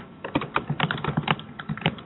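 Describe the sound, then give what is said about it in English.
Loud typing on a computer keyboard: rapid, irregular clicks and clacks of keys pressed in quick runs, heard on their own throughout. “You are typing very loudly.”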